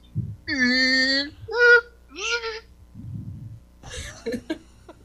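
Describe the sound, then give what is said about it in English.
A voice imitates claw machine noises with a series of tonal, buzzy vocal sounds, some sliding in pitch, separated by short pauses and followed by a few quicker, choppier bursts. “I actually wrote down claw machine noises. And actually, I did write out, I wrote out zert and vert.”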